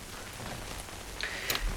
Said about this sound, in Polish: ten taki ładny szum, to nie jest w żadnym wypadku deszcz za moim oknem, to jest po prostu już serwer FMDX z włączonym audio.